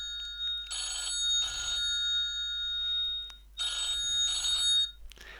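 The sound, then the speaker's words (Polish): A telephone rings with two clear double rings, each a pair of bright electronic bell bursts separated by a pause. A low steady hum runs beneath, and no one speaks. “momencik, bo mam ważny telefon”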